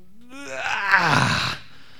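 A man gives a single drawn-out groan that starts low and rises in pitch, then turns into a rough, breathy moan. It lasts just over a second before cutting off into quiet.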